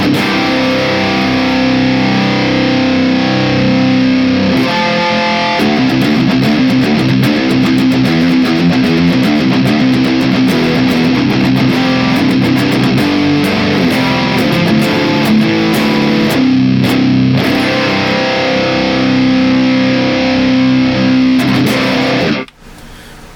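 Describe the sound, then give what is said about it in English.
Heavily distorted electric guitar plays through a Bossi R200 speaker impulse response in a Neural DSP Archetype amp plugin. It is a loud, dense, driving riff with rapid chugging palm-muted figures, then stops abruptly near the end, leaving a brief quieter tail. “The Bossi R200 and the Neural DSP archetype of Bossi, it sounds like this.”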